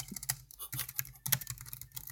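Typing on a computer keyboard while entering a prompt for an AI chatbot: many quick, soft key clicks in irregular bursts, broken by short pauses, with no one speaking.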